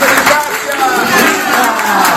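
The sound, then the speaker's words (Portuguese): An audience at the Capela dos Milagres, a chapel of Santa Rita de Cássia, applauds a priest. Dense, continuous clapping mixes with voices and cheers throughout. “Uma salva de palmas para o Padre Márcio.”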